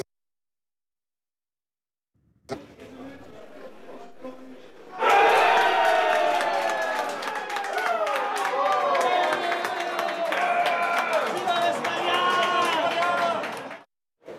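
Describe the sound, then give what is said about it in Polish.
Football fans cheering as Spain scores from a penalty in the 22nd minute of a semi-final: after a quieter murmur, a sudden dense roar of crowd noise holds loud for about nine seconds before cutting off. “kiedy w 22 minucie pierwszego półfinałowego spotkania najgłośniej było słychać właśnie okrzyk radości kibiców.”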